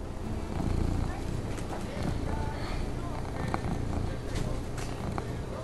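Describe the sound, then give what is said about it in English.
A bodega cat purring, a low continuous rumbling throb under dense background noise and indistinct voices. “Pause to make prolonged eye contact with a bodega cat. Really feel a connection with the animal.”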